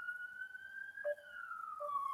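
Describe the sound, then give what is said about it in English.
A siren wails steadily through the whole stretch, a single high tone that climbs slowly and then glides back down in a long, smooth sweep at a fairly even loudness, with no voices over it. “I got the background. I got sirens in my background.”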